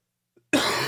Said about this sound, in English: Excuse me. Did I say that out loud? I need a cough drop.